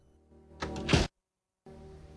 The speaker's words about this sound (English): She runs up steps to a stained glass front door, goes inside and glances back before shutting it.